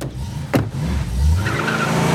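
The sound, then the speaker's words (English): A car drives off: a sharp thud, then a low engine rumble that swells and carries on steadily as it pulls away. “They drive off.”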